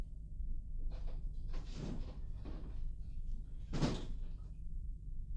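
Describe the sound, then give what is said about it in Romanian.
A terrace door being opened in a staged comedy drama, heard as a few muffled scrapes and thuds over a low background hum, the loudest coming near the end. “Deschide ușa de la terasă. Vreau să cobor puțin în grădină.”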